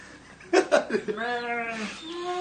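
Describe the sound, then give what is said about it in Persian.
A bleat from a very chubby sheep: a wavering, tremulous call lasting under a second follows a few short loud bursts and trails off into a fainter held tone. “گوسفندی بسیار توپل که اهل عرفان هم می باشد.”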